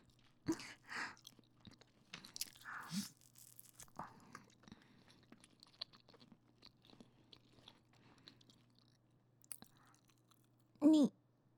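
Someone chews and eats food with soft, crunchy bites and wet mouth noises coming in short bursts, quiet overall, with a brief louder sound near the end.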